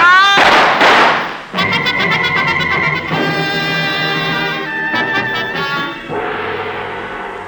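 A gunshot fired in through a window: two loud, sharp blasts at the very start, followed by a long, sustained ringing tonal passage.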